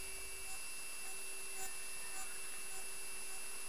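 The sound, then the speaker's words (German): Static hiss from radios built into astronaut helmets: a faint, steady rushing noise with thin constant tones running unchanged through the whole stretch. “Was ist das? Es rauscht so in den Funkgeräten. Vielleicht, weil die Funkgeräte in unsere Helme eingebaut sind.”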